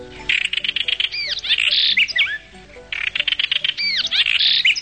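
A house wren, or chercán, calls in rapid bubbly trills and bright twittering chirps, delivered in two loud bursts with a short pause between them.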